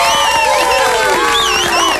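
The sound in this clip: Applause sound effect played for an actress's introduction, a loud, dense crowd cheering with many shouting voices and whistles over a continuous roar.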